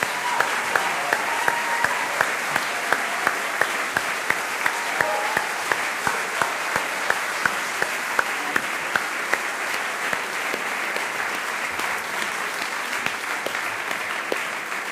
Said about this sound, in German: Lass uns mal richtig feiern und Dankeschön sagen. Riesenapplaus, großes Kino, vielen, vielen Dank.